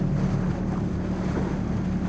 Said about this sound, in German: Sie haben zu mir gesagt, dass sich das Wasser schön am Bug teilt?